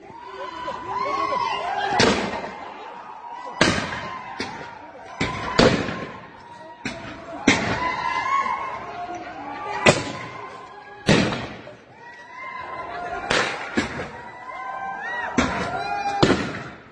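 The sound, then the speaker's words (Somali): Gunfire during clashes between ethnic groups at a university in Ethiopia: many sharp, loud cracks and thuds at irregular intervals over a low murmur of voices. “rasaasta aad maqlayseen jaamacadda ayay si toosa kaga socotay”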